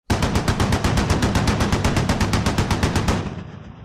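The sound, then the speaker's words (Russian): Rapid automatic fire from a Bradley autocannon aimed at house facades along a street. One long, loud, unbroken burst of many closely spaced shots, which cuts off and leaves a brief fading tail. “Автопушка «Брэдли» неожиданно дала пару очередей по фасадам домов слева по улице.”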